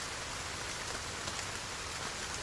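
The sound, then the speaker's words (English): Rain falling outdoors, a soft, even hiss of many drops that stays steady and fairly faint throughout with no voices. “I mean, it's raining”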